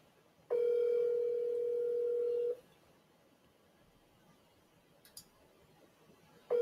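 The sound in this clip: Ringback tone of a phone call that goes unanswered: a steady electronic tone lasting about two seconds, a pause of roughly four seconds with faint clicks, then the tone starting again.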